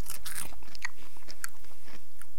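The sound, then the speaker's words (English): Crunching bites into a fried insect: many sharp, crisp crackles in quick bursts, loud and alone with no talk. “Well, I'm not happy to eat it, okay. But I'm going to eat it. So my one looks like, yeah, you see, you wouldn't know that was an insect.”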